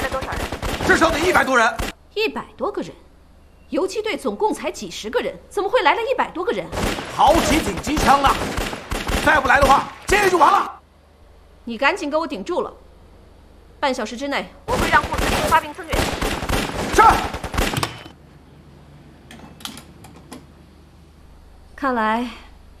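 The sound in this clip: Bursts of gunfire, machine guns firing during a raid on a prison, come as dense, sharp volleys in a few stretches, loud and mixed in with people talking.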